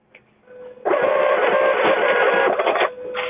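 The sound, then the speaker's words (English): A receipt printer at a store checkout: a small click, then a loud, steady buzzing whir of printing for about two seconds, easing into a quieter mechanical hum at the end, with no voices. “What is that sound? Is that some type of a machine? What's it's making that noise? It's called a receipt printer. Okay, it's a receipt printer.”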